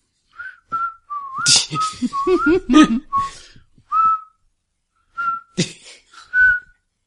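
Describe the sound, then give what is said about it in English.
Tuneless whistling drifts in short, wavering notes around a steady middle pitch, broken by breathy puffs and brief pauses. “I do start whistling tunelessly to draw attention away from me.”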